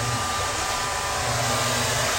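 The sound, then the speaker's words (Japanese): A hair dryer blows to dry long, thick hair, giving a loud, continuous airflow roar with an even, unchanging level throughout and no talking. “送風で乾かせばすごくいいんだけれど、まあ、髪の毛も多いので”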